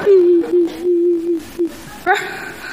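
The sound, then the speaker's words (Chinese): A person crying in a long, steady wail held at one pitch with a few short breaks, ending in a brief, higher vocal burst. “你哭什么呀？别哭，憋回去。”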